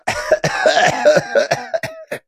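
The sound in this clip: A man chokes and coughs in a rapid series of rough, raspy hacking bursts with brief gaps between them, loud throughout and ending abruptly.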